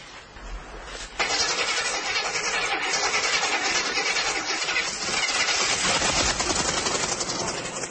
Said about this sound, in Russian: Машину эту подарил Игнату старший брат Митя. Купил за $150. Ну, а ремонтирует ее Игнат сам.